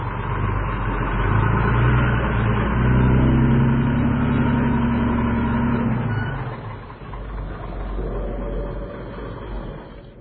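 Tanker truck engine revving as it drives off, a loud, steady low roar with rumbling overtones that holds for several seconds before easing slightly and continuing at a lower level.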